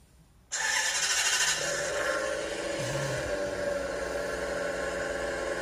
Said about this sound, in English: I know that this is real because... you've been in one. Yeah. This is a Maserati Gran Turismo.